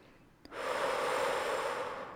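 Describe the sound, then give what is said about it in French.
A deep breath drawn in during a guided relaxation exercise: a small click, then a steady, fairly loud rush of inhaled air lasting about a second and a half, with no speech. “Prendre quelques respirations profondes. Inspiration.”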